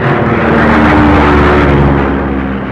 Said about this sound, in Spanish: el motor empezaba a fallar. ¡El combustible se agota!